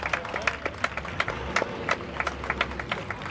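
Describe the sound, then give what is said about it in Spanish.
Applause from an audience at a religious brotherhood event honouring the Virgen del Carmen. It is a loose patter of sharp individual claps at an uneven rhythm, at moderate volume. “los vivas a la Santísima Virgen del Carmen y los aplausos”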